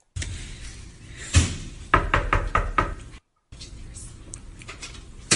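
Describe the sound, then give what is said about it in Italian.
Knocking on a hotel room door: one heavy thud, then a quick run of several sharp raps. A short silent gap follows. “credo che bussa alla porta”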